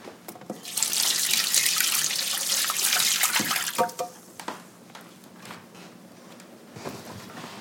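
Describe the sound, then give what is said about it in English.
Water runs from a tap as egg-covered hands are washed beneath it, a steady rushing stream for a few seconds that then shuts off, leaving scattered drips and small splashes. “now let me go wash my hands because they're all eggy.”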